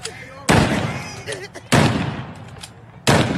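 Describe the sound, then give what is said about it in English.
Three loud gunshots from live ammunition fired around New Year: each blast is a sudden, heavy crack followed by a rumbling tail that fades before the next shot. “Those are bullets, ladies and gentlemen. That's not a blank.”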